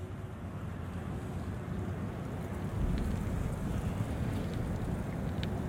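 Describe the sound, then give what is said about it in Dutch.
Constant rushing of water at a weir blends with the distant hum of the A2 motorway and the churn of gravel mills, a dense, low, unbroken roar with a few faint ticks on top. “het enige wat je hoort is, nou, ik denk de A2 op de achtergrond en het geluid van die grindmolens, hè? Grindmolens en je hoort het water van de stuw.”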